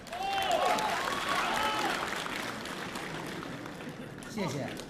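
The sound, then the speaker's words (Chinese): Warm audience applause after a crosstalk comedy act at a Beijing stage show: sustained, dense clapping with voices talking over it, then tapering slightly. “谢谢大家热情的掌声”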